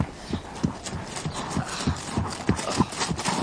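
Horse hooves clip-clop at a trot as the animal is shown off to a buyer, a steady, even run of many low thuds.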